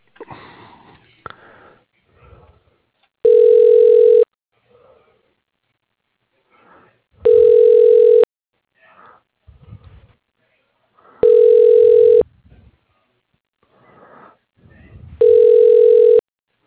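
Telephone ringback tone sounds while an office extension is dialed: four steady one-second tone bursts at even intervals, with faint sniffing and breathing noises in the quiet gaps between them.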